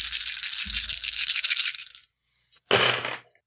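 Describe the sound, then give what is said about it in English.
Dice rattle in a hand during a tabletop role-playing game: a sustained, bright shaking rattle for about two seconds, then after a short pause a second brief clatter, with no talk. “Let me get my dice together. There's listen to that rattle though.”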